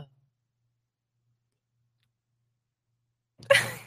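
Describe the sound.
A single abrupt sneeze bursts out after several seconds of near silence, sharp at its onset and trailing off quickly.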